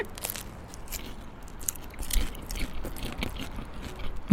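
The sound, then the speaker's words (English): Someone eating a Christmas cracker: a run of crisp bites and crunches mixed with wet chewing, quiet at first and growing louder toward the end, with no talk. “Oh, now I'm eating with my mouth full.”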